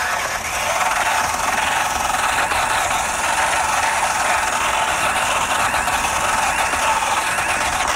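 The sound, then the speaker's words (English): A drill spins a changeable, very abrasive pad against a wheel hub to clean its mounting surface. After a brief start it makes a steady, even whirring grind that holds at the same level for about seven seconds, with no talk. “Cleans the hub up, rotates obviously on any drill that it'll fit, which is almost all of them. Just comes with a really abrasive pad here that you can change out.”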